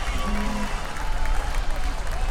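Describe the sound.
Audience applause for the band at a live concert: a dense, continuous wash of clapping and crowd noise, with a voice speaking over it.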